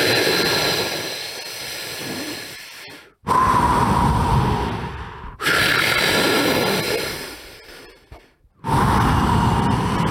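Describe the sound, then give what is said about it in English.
Deep breaths are drawn in and out during a guided breathing exercise: a series of long, airy, rushing breaths, each lasting a few seconds, separated by brief silent pauses. “Let's take 10 breaths like that now, all the way in, all the way out.”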